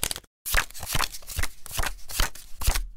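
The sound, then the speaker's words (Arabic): Playing cards being shuffled and dealt for a game of Conquian, a quick run of sharp riffling snaps and papery slaps that come in many crisp bursts after a brief silence. “يلا خدي ورقك، وادي اول كارت، انزلي بقى بورقك اهو.”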